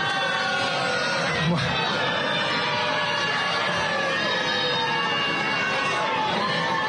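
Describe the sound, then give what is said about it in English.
A crowd at a political rally boos, a dense, continuous roar of many voices that holds at a steady level throughout, with chatter mixed into the wash of noise. “That's booing.”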